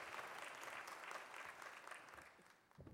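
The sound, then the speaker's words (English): An audience applauds to welcome a guest speaker to the pulpit, with soft, dense clapping that runs steadily and thins out near the end. “So join me again in giving a warm Oakmont welcome. And now you can really clap and applaud for Susan Sparks.”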